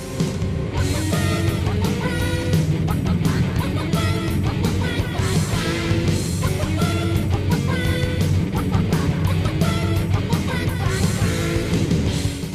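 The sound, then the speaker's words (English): Chicken clucks stand in for the horn parts of a song, blending into continuous, dense full-band music that stays loud and steady throughout. “The horns are replaced by chickens going.”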